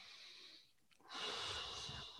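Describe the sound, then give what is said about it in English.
A slow breath drawn in during a guided relaxation exercise: a soft, breathy hiss lasting about a second, ending in a short low thump. “Take a breath.”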